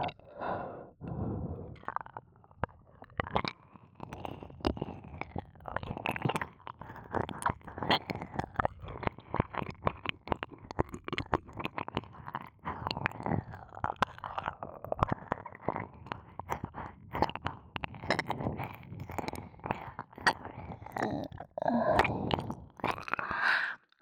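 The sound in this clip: A voice imitates eating an ear with close, soft mouth sounds: many wet smacks, clicks and chewing noises in an uneven rhythm, mixed with breathy sighs throughout.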